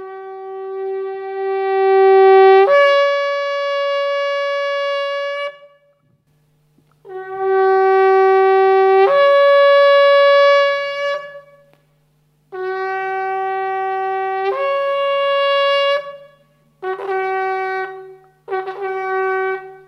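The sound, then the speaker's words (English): A shofar, the Jewish ram's horn used as a watchman's call, sounds five loud, brassy, buzzing blasts. Long steady tones break upward in pitch, and a couple of short bursts close the sequence. “it's a Jewish ram's horn or a shofar. And it's the sound of a watchman. They used to sound these on the walls, and this is what it sounds like.”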